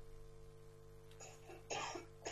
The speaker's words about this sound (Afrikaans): ek wil verstik aan iets, is daar een oomblik het ek gauw kan hoes? Okay, verstik gauw klaar.